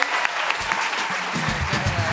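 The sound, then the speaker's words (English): Dense, continuous applause from a live theatre audience at the Leicester Square Theatre in London, with many hands clapping at a steady, loud level throughout and faint crowd voices mixed in beneath the clapping. “please give a lovely, massive cheer and round of applause to our excellent guests, Catherine Ryan, Alex Jones, Jess Phillips, Mickey Noonan.”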